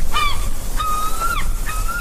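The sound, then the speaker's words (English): Seagulls call in three loud, drawn-out cries, the middle one longest, each a harsh, tonal squeal over a rough, noisy background. “Oh, the seagulls, they're at it again.”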